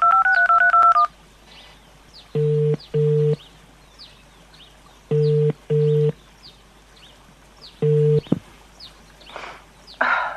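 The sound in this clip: Telephone keypad tones as a number is dialed: a short stepped beeping tune, then five steady two-tone keypresses, mostly in pairs separated by pauses, over faint bird chirps.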